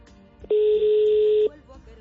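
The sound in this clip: A telephone tone after a call is cut off: one steady, loud, mid-pitched tone lasting about a second, heard alone between short stretches of faint background noise.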